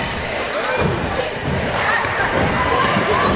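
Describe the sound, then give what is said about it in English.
Basketball dribbled on a court during a high school girls' game, repeated bouncing thumps under a constant wash of crowd noise and murmuring voices. “A lot of dribbling, not a lot of motion.”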